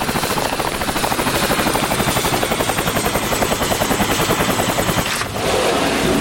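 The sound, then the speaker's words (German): A helicopter comes in to land on a plateau, its rotor chop a loud, rapid, steady beating that fills the whole clip, with a brief dip near the end before the heavy thudding resumes. “Ich glaube, ich höre einen Helikopter. Tatsächlich, da hinten.”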